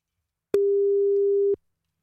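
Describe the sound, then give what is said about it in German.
A single steady telephone line tone sounds while a call is being placed. It is one unbroken, mid-pitched beep lasting about a second, loud and clear on its own, with silence before and after. “Und jetzt wollen wir die Mama mal anrufen und gucken.”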